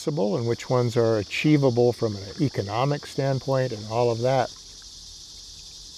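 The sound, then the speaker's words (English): Cicadas buzz late in the summer season, a steady, high, shimmering drone that runs beneath a man's speech and continues on its own after he stops. “These guys are late, by the way. They usually aren't here this late in the season, the cicadas.”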